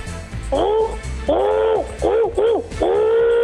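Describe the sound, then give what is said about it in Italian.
A human voice imitates an owl's hoot with five tonal, wavering hoots in an uneven rhythm. Two short calls come in quick succession before a final longer one. “mi fa il verso del gufo.”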